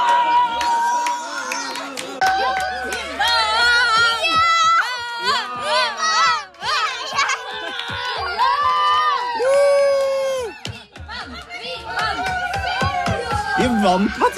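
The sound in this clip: Excited cheering and shouting from adults and children together as Norway beats Ivory Coast in a football match, many overlapping high voices yelling in loud, uneven bursts.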